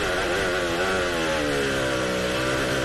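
Formula 1 car engine at full throttle: a loud, continuous, high buzzing roar that holds steady for the whole stretch, with no talk over it.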